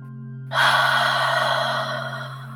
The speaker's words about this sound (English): you can take a deep breath in your nose and out of your mouth.